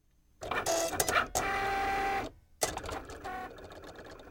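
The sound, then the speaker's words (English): Whirring, buzzing motor of a Cricut cutting machine cutting out an outline design for fabric appliqué, running in three continuous stretches with short pauses and shifting mechanical tones, with no talk. “the outline the Cricut machine cuts out and transferring that onto a piece of heat and bond”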